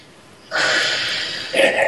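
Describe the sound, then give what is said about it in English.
A deep inhale taken during an EFT tapping exercise, a loud, airy breath that starts abruptly and lasts about a second before a brief, stronger surge of breath. “And take another nice big deep breath.”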